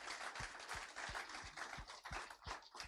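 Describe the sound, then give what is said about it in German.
Audience applause at a church worship service: faint, steady rhythmic clapping in time, with an even beat of many hands thanking the worship team. “To be frank, you have to clap better for the worship team. Wir müssen noch mehr klatschen für das Lobpreisteam.”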